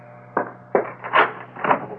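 A front door is opened in a radio drama, heard as four distinct wooden knocks or clunks spaced out over a low, steady hum.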